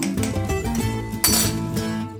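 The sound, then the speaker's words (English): An iced teaspoon clinking against a glass while stirring iced lavender lemonade made with syrup and lemon juice, giving bright, rapid, repeated metallic clinks at steady loudness, with a sharper strike partway through and no talk. “right before you serve it, take your iced teaspoon, stir it up”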